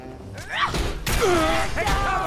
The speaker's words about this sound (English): Whoop! I threw a grenade at my feet.